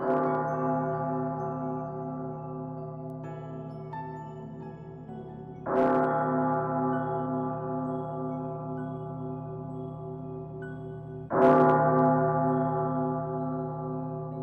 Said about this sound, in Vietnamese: tiếng chuông đại điện không ngừng vang lên